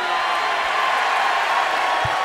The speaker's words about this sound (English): And the fact that you people sit here and cheer that just goes to show I'm telling the truth.